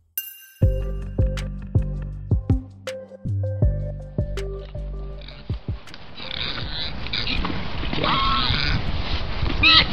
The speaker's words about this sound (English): That's the sound of the Eurasian wild boar.